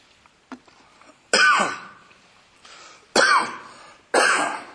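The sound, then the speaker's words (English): A man coughs harshly during a sermon: three loud, rough bursts, each trailing off, with the first sounding partly like throat clearing. There is no talk between them. “if I can stop coughing”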